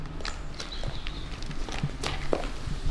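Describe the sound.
Footsteps of people walking into a vacant building, steady scuffing steps with a few sharper knocks, heard over a constant background hum.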